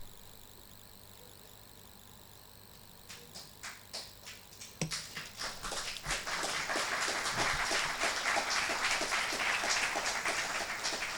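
Audience applause at a live economics conference: a few scattered claps at first, then swelling into dense, steady, fairly loud clapping that continues to the end.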